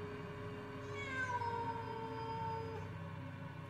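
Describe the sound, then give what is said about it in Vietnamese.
A feral cat perched in a persimmon tree lets out one long, loud, drawn-out yowl that rises and then slowly falls in pitch, over a low background rumble. “Đáp lại ông là tiếng con mèo hoang. Nó đậu ở trên cành cây thị, nó cào móng xèn xoẹt, nó kêu lên từng hồi.”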